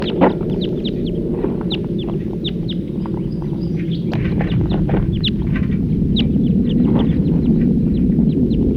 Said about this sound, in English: Another wild bird. In flight. Song flight. Wild birds.